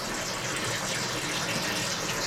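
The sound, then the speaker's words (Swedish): Water gushes into a canister being filled, the water carried in from 400 meters away; a steady, continuous rushing hiss that stays even throughout, with no talk. “Då ska du fylla upp den där dunken då med vatten som du har fraktat hit 400 meter.”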